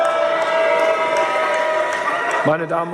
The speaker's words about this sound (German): Trotz der Buhrufe beließ es der Kanzler bei dieser Spitze.